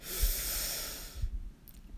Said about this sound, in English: Breathe in and out. Breathe in